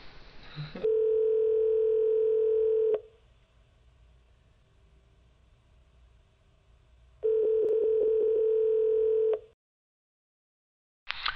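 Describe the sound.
Telephone ringing tone heard while placing a call: two long, steady, mid-pitched tones of about two seconds each, separated by a quiet pause, with a brief click at the start and end.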